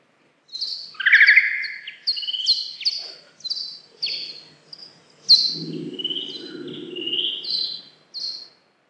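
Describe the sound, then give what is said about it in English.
A bat's mating-season advertisement call, recorded as ultrasound and slowed down to be audible, comes as a series of quick, high chirping and twittering syllables, with a buzzy lower rasp midway through. “So that was a bat. That was bat ultrasound recorded above your hearing range, but slowed down so you could hear. So that was an advertisement call from the peak of the mating season.”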